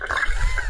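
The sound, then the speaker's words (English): Muffled watery sloshing and splashing from a man doing push-ups underwater. It is a brief, continuous churn with a deep low rumble, with no separate splashes standing out. “It is waterish. It's the sound of a man doing push-ups underwater.”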